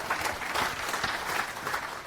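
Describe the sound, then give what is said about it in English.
Audience applause at a conference talk on web performance: dense, even clapping from a crowd, sustained at a steady level for the whole clip. “So big round of applause for Ayub.”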